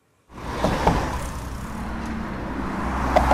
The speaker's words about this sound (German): Früher klang die Autobahn fast überall so. Denn die Fahrbahn bestand nicht aus Asphalt, sondern aus Beton.